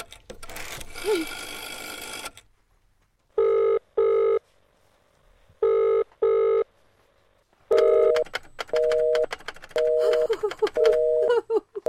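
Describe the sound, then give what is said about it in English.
A telephone number is dialed on a touch-tone phone. Short, clean electronic beeps come first in two spaced pairs, then in a quicker run of four, after a brief stretch of noise at the start. “Operator, try that number, Murray Hill 40098 for me just once more, please. You may dial that number direct.”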